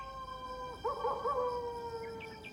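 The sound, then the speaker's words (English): A coyote howls at night over open hills: one long, sustained, wavering howl that rises into a warbling middle section and then trails off, heard alone at moderate loudness. “Is that a coyote? Yep. Man, he better keep quiet.”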